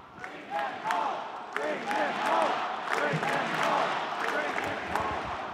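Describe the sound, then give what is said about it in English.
A rally audience chanting in unison: many voices, loud and sustained, with a repeating rhythmic cadence and scattered claps mixed into the crowd noise. “The audience breaks into this chant.”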